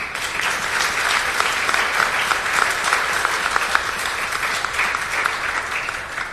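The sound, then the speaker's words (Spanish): An audience applauds at an award ceremony marking the approval of a law protecting people from tobacco smoke exposure. Dense, even clapping continues steadily for over six seconds. “Josefina Rodríguez y que le demos un aplauso.”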